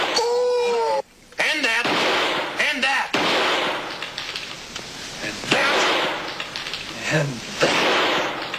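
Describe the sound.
Gunshots in a comedy gag reel soundtrack: a few sharp bangs cut through a busy, loud mix of voices and noise, one abrupt blast followed by a brief dropout.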